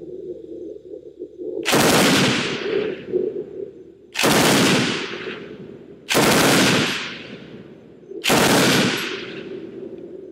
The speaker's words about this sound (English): is there some secret special sauce to the FG-42 that makes it a more controllable gun?